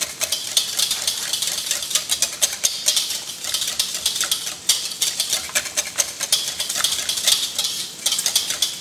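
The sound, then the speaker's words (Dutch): Stirring of a savory cheese tart mixture in a bowl: fast, steady scraping and light clinking strokes of a utensil, many in close succession, with no talk. “Goed roeren, dan krijg je allemaal klontjes.”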